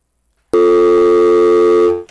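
A telephone line tone after a dropped call: silence, then a sudden loud, steady, buzzy tone that holds unchanged for about a second and a half before cutting off.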